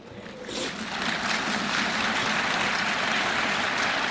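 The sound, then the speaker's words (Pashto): Members of the European Parliament applaud after a law is presented. A soft start swells within half a second into a dense, even roar of clapping that holds steady to the end. “د اروپا د پارلمان غړو د چهارشنبه په ورځ د لایې په چکچکو بدرګه کړه.”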